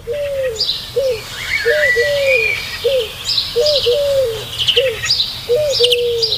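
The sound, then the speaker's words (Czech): Repeated bird calls at dawn, a series of short downward-sweeping whistled notes at a steady rhythm, with fainter higher chirps above, alone without talk. “Tenhle zvuk tohohle ptáka mě děsí.”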